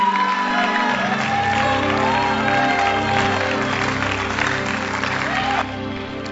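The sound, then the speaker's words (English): A church audience welcomes its pastor with sustained, dense applause, steady clapping mixed with scattered cheers and whoops, holding loud throughout before easing slightly near the end. “So put your hands together as we welcome our father, our pastor, our teacher, our prophet, Bishop Eddie Addy.”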